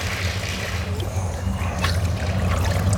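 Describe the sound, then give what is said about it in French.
Water sloshes and trickles as a plastic bottle with its base cut off is plunged under the surface, a steady, busy burbling that swells slightly toward the end. “Et là, vous êtes en train de les enfermer, de plonger la bouteille sous l'eau.”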